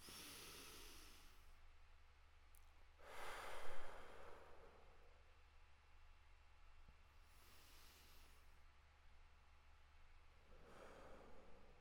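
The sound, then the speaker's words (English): Slow breathing in through the nose and out again during a breathing exercise, heard as several soft, long, airy rushes spaced a few seconds apart over a low hum, with no talking. “I'm going to go ahead and breathe in through my nose. Pause for a count of two. Exhale to a count of four. I'm going to do that five times.”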